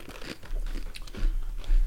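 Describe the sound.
Crunching of a Mexican Salsa Caliente flavoured snack: a few crisp, loud bites and chews in quick succession, with no talk over them.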